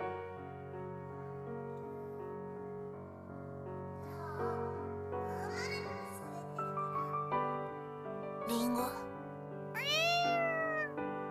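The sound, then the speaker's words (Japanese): A cat meows a few times over steady background music, its calls growing clearer toward the end, where the last meow is loud and drawn out. “あの猫はあなたに呼ばれたがっている。”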